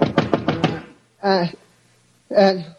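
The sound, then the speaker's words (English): A quick run of about five knocks on a door wakes a sleeper, followed by two short spoken replies separated by silence. “And then a knock on the door wakened me.”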